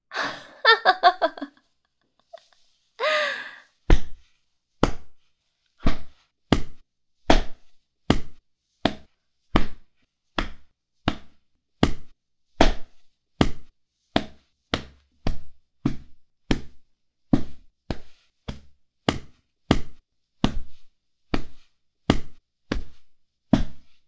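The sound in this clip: Punches to the stomach land as a long run of heavy, dull thuds at a steady, regular pace. Many blows follow a short burst of gasping, breathy vocal sounds at the start.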